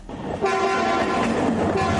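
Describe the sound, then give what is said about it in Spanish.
A train rolls past in a loud, steady rumble and clatter, with a sustained horn-like tone held over it throughout. “el recorrido siempre es mejor hacerlo en tren”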